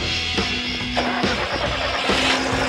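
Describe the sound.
A car engine is started and run without any warm-up, giving a steady, rough mechanical drone with a low hum and a few surges in level.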